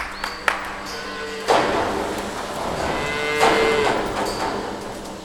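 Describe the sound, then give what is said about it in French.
Cows being moved into a milking parlour at a farming school in Georgia: a few sharp taps and clanks, then low moos over a steady mechanical hum. “On vient de faire monter les vaches dans la salle de traite.”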